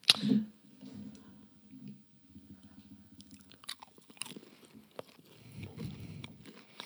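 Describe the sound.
Quiet, moist chewing of a small donut-shaped prune snack: soft squishy bites and mouth sounds continue irregularly throughout, with no talking.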